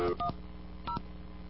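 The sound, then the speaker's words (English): Touch-tone telephone dialing during a phone call: three short keypad beeps, two close together and a third after a brief pause, quiet over a faint steady hum. “Let's see if I got a dial tone.”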